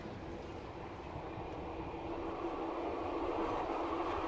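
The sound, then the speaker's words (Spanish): A departing train of six saloon coaches gives a steady, dense rail rumble with a low hum that builds gradually in loudness and carries on without interruption. “dejando en la vía paralela al Optima Express, arranca el último tren serio de este largo viaje.”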